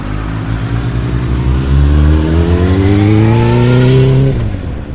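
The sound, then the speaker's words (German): Motorbike engine revving loudly, its droning note climbing steadily in pitch over several seconds before cutting off abruptly just before the end. “Und zwar nehmen wir jetzt ein Motorbike. Das macht solche Geräusche.”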